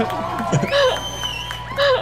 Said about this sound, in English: Then the whole bar cheers.